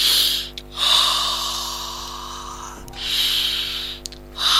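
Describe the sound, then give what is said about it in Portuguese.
A person breathes loudly into a microphone in a studio, giving two long, hissy breaths separated by short pauses. “Outro estúdio, outros ares. Estou a respirar em voz alta.”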